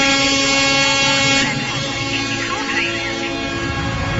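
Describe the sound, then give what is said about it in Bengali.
A train starting to move off very slowly gives a continuous rumbling roar with a sustained droning, horn-like tone running throughout. It eases slightly in loudness after the first second and a half. “আর ঠিক এমন সময় ট্রেনটা দুলে উঠল, তারপর খুব ধীরে ধীরে সামনের দিকে চলতে শুরু করল।”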